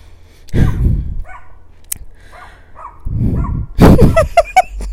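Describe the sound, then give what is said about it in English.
A dog barks in a short burst of high, yipping barks near the end, after a stretch of low rumbling noise with fainter yelps in between. “Dog, please go away. Doggo, don't do this to me.”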